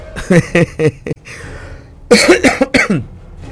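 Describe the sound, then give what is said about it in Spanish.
Coughing and throat clearing from someone with a tickling, itchy throat. Short, rasping voiced bursts come in two clusters separated by a brief pause. “Pues primero que se me quita este pelo que tengo en la garganta.”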